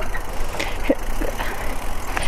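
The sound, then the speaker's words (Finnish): Bicycle riding downhill on a trail, a continuous rushing, rumbling noise from the tyres and wind, loud and steady for the whole moment without clear breaks. “Mä luulin lähteissäni, että mä oon niin kuin kovakin pyöräilijä, mutta nyt täytyy sanoa, että rupeaa jo vähän hirvittää tässä alamäessä.”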